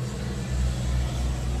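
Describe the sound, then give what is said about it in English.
A bus passing by in the street gives off a low, steady engine rumble and hum. It swells slightly in the middle of the brief moment and holds there without any voices. “Sorry, a big car passing. There was a bus passing by, sorry.”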